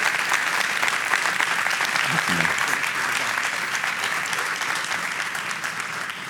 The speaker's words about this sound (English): Come on, y'all give him a hand.